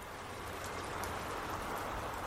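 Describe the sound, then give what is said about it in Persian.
Heavy rain pours down around the steps and iron door of a bank, a dense, steady hiss that holds one even level from start to finish with no voices. “بارون شدیدتر شده بود و من سر تا پا خیس.”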